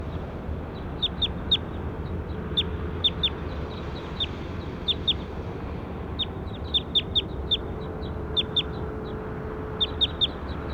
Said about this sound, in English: Start recording bird two again.